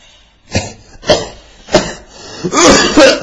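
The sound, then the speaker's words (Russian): A few harsh coughs from a man, spaced about half a second apart and growing rougher and louder toward the end, with a longer throaty burst closing the run. No other voices. “Что ты кашляешь?”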